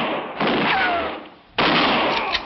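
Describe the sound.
Two rifle shots ring out in a radio western drama. Each is a loud crack followed by a long, rumbling decay, and the second comes about a second after the first.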